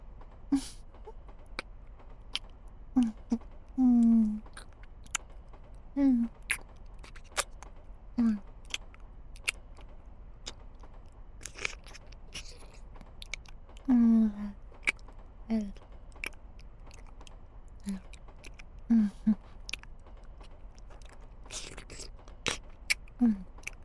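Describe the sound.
Soft, wet kissing and lip-smacking sounds on the ear in an ASMR recording: many short, quiet smacks and clicks at irregular intervals, some with brief squeaky tones.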